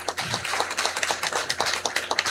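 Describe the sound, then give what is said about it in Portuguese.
A round of hand claps at a religious gathering welcoming local officials, faint and uneven, with many distinct sharp claps in a loose, irregular rhythm rather than a dense roar. “Uma salva de palmas a todos.”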